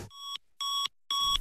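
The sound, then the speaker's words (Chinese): Electronic alarm beeps from the big screen of a solar power plant's remote control centre, signalling a low insulation-impedance fault on an inverter: three loud, sustained high-pitched tones, each about a third of a second, evenly repeated. “华能滨州公司远控中心的大屏幕发出警报”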